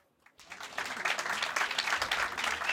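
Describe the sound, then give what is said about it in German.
Audience applause at a public event rises after a brief silence into dense, steady clapping that holds at a moderate level to the end, with faint voices underneath. “Einen großen Applaus für Felix Bezin”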